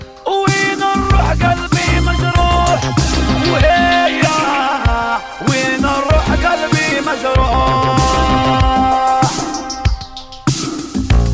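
Electronic dance music from a DJ set plays loud and steady, with a driving percussive beat under layered melodic synth lines, ending with a brief break before the beat returns.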